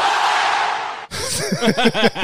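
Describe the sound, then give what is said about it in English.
A roar of crowd cheering rises from an audience of about 450 people at a live recorded talk, lasts about a second, cuts off abruptly, and gives way to scattered chuckling voices. “that was the cheer alarm. They're allowed to cheer.”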